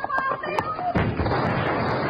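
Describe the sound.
A single loud gunshot from a western radio drama about bank robbers bursts out partway through and leaves a rough, decaying rumble behind it.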